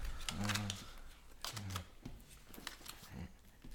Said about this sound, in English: I feel like this is just giving me like a lot of like little background noise of drawing cards and then laughter.